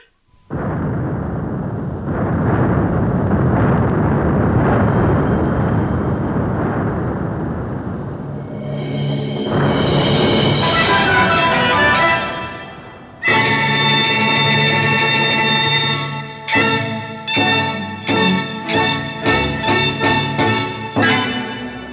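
Cannons fire during the siege of a walled city. A long, rumbling roar swells and then gives way to many sharp booming blasts in quick succession, loud throughout.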